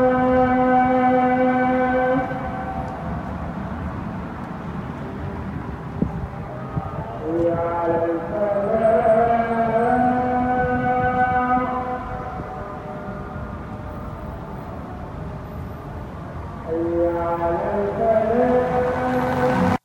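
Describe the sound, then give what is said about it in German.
An amplified muezzin chants the call to prayer, heard five times daily: long, sustained, melodic vocal phrases that waver in pitch, separated by brief pauses, over a constant background hum. “Dann ruft der Muezzin fünfmal am Tag zum Gebet und das hört sich so an.”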